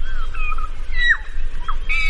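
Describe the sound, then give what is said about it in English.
A honeyeater sings a song borrowed from another bird species, a few thin whistled notes and quick sweeping chirps over a steady low background rumble. “12% of the birds weren't singing honeyeater songs at all. They were parroting different species songs, like this.”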